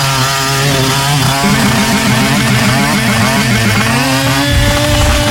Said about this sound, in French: Attends, je prends le scooter top. Vas-y.